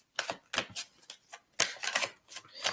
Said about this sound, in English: pull one more card for you